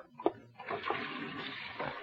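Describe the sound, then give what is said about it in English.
Running water from a tap as someone washes their hands, a soft, steady splashing hiss that starts after a brief knock and continues for about two seconds. “Wait till I wash my hands.”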